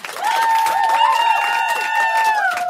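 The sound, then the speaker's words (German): An audience at a live stand-up comedy stage applauds and cheers after a set, with loud clapping under a sustained high cheering tone. “Applaus, hey.”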